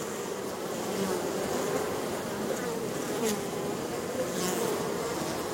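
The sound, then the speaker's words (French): A honeybee swarm buzzes and vibrates in a dense, steady drone, loud and unbroken throughout with no voices. “L'ensemble de l'essaim, qui a assisté pendant plusieurs heures ou plusieurs jours à toutes les étapes de la délibération des éclaireuses, se met alors à vibrer de plus en plus fort.”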